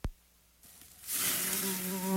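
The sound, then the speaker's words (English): A mosquito buzz sound effect for a pest control ad: a short click, a quiet gap, then a steady, high, thin whine that grows slightly louder toward the end. “Look over there. Humans in their yard barbecuing. I see them. Let's buzz over there and have a picnic of our own. Don't become a mosquito's meal at your own cookout.”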